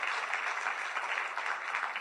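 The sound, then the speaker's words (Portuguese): A church audience applauds during a worship service, a brief burst of steady, dense clapping with no voices on top. “Pode aplaudir o Senhor Jesus.”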